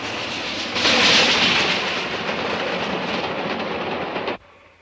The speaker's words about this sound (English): A steam train powering across the countryside, belching smoke into the air.